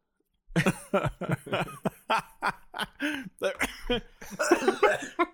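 Choking cough after inhaling a piece of almond into the windpipe: many rapid, harsh, partly voiced bursts follow one another closely, with chuckle-like sounds mixed in.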